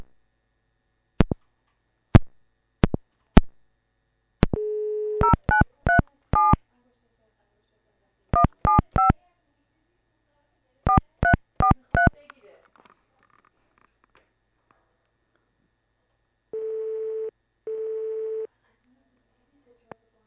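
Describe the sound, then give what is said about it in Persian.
Outgoing phone call being placed: a few sharp clicks and a short tone, then quick bursts of keypad dialing tones in three groups, a pause, and a double ring of the ringback tone. “خب شما قطع کنید، من تماس میگیرم.”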